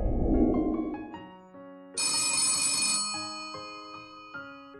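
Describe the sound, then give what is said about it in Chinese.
A landline telephone rings in a study with an electronic, melodic tone, stepping through a series of notes, with a brighter, louder stretch in the middle before the pattern resumes. “盛世庄园书房里，叶晨玉还在埋首文案，旁边的座机便响了起来。”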